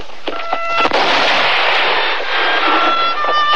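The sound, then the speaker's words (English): A gunshot fired at a rider on a Rocky Mountain trail near Long's Peak: a sharp crack breaks out amid a loud, dense rushing wash of noise, with thin steady tones running through it. “A shot rings through the clear mountain air.”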